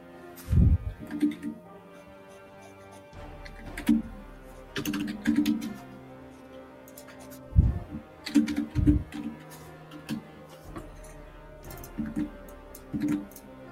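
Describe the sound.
Computer keyboard typing while editing: irregular bursts of clicky keystrokes, some loud and some faint, over a steady tonal background.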